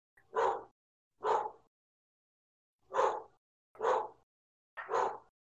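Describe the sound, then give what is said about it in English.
Dogs barking: five loud, separate barks in an uneven rhythm, with a longer pause after the second. Nothing else is heard around them. “That's a dog. It's my dogs. They're dumb.”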